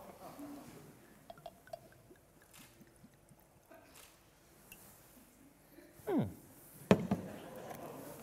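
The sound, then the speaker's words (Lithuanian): Schnapps is poured into an opened shampoo bottle: faint scattered clicks and a soft trickle, then two short, louder gurgling glugs of liquid near the end. “Tada imam, pilam į vidų šnapso.”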